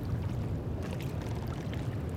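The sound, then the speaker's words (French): Soft wash of moving sea waves: a quiet, continuous low rumble with a gentle, broader surge of water swelling through the middle, without voices. “Rien, rien qui bouge, sauf la mer. C'est beau la mer qui bouge.”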